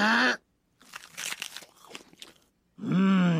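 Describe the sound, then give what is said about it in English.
Someone bites into a crunchy burger made from barley, giving a dense burst of crisp crackling crunches lasting about two seconds, framed by brief voiced sounds just before and after. “Introducing the Mother Nature Burger, made from 100% wheat-fed barley. And now to take a yummy bite.”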